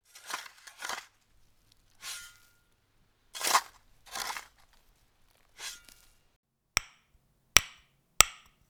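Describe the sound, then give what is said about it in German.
Crunching scrapes of a spade digging into field soil, several uneven bursts, then three sharp, hard knocks in a quick series near the end. “Fang an zu graben.”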